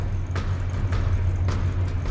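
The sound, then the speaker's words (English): A truck engine rumbles as the driver throws it into gear, giving a steady low drone with faint, regularly recurring knocks over a constant hum. “The driver quickly throws it into gear and towards the distant hills, the only cover for miles.”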